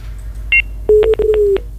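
Telephone tones sound after a call is cut off: a short, high two-note beep, then a quick run of lower, loud pulsed beeps.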